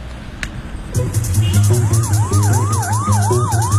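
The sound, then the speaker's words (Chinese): A police car siren wails in a fast, steady rise-and-fall pattern over a low engine hum as the car arrives in the evening, staying loud and continuous throughout. “从南通回来的乔丽娜、丁小军带着罗秀成从警车上下来”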